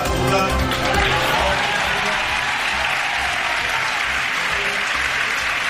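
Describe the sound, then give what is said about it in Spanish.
Applause at a Socialist campaign rally in Valencia, a dense, continuous wash of many hands clapping at a steady level from start to finish. “Sonido en directo desde ese mitin de Valencia.”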